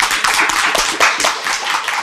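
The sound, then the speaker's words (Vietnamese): An audience claps their hands, loud sharp claps falling in a quick, fairly regular beat, with no talk over them. “Cho tặng vào tay, cho tặng vào tay bà. Bạn vỗ tay lớn chút xíu nữa, vỗ tay lớn cao nữa.”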